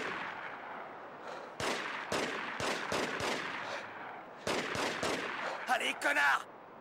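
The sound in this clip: Gunfire from a PS2 video game in which two weapons are wielded at once: many sharp shots in irregular bursts over a steady low background, ending in a quick cluster of rapid shots.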